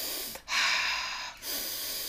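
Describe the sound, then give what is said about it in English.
A person demonstrates breathing in through the nose: one long, airy, hissing inhale, then a brief pause and the start of a second, softer breath, with no talking. “you can either breathe in through your nose or your mouth, can't you? Or vice versa, or both. Yeah, so you might be like,”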